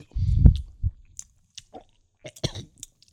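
Chewing of a blackberry-flavoured gummy, a dense wet mouthful at first, then a few faint, scattered soft clicks and squishes with quiet gaps between them. No one speaks.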